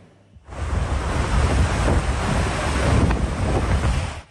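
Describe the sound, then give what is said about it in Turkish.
Rushing floodwater of the overflowing Deliçay river in Dörtyol, Hatay, after heavy rain swept vehicles away: a loud, dense roar that starts abruptly and surges on unbroken, with a heavy low rumble like wind buffeting, no voices. “Dört Yol ilçesinden geçen Deliçay taştı. Araçlar suya kapıldı.”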